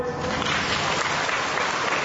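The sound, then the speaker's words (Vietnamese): A church audience claps loudly at a sermon leader's urging, a dense, continuous burst of many hands at an even level from start to finish. “Vỗ tay to lên thưa anh chị em, vỗ tay to lên.”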